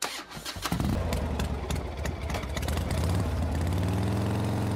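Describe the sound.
A motorbike engine starts with a few sputtering, uneven bursts, then settles into a steady, loud idle with a low rumble.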